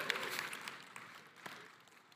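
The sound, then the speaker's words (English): An audience at a church gathering applauds the parents with a faint, even patter of many hands clapping that continues throughout without a break. “We've got great kids because we've got great parents. Give yourselves a hand, parents.”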